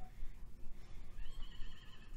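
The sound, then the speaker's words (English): A horse neighing faintly in the background: a thin, wavering high whinny rises out of a steady low rumbling hiss in the second half. “A horse in the background.”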